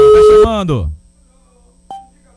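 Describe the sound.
A telephone call is placed for a radio call-in prize contest, with a single clear electronic tone following lively speech and a faint low hum underneath.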